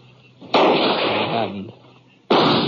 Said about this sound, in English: The bullet nicked a rock right about a foot left of my face.